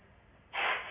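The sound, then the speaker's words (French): A breathy exhale during a breathing exercise, a short rush of blown air that starts abruptly after a quiet moment and holds briefly before easing off. “On va commencer par souffler pour amener le souffle à la base.”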